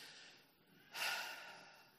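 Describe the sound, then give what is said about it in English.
A single deep breath, a soft, airy rush that swells suddenly about halfway through and then slowly tapers off, faint and heard alone with no talk. “Take a deep breath.”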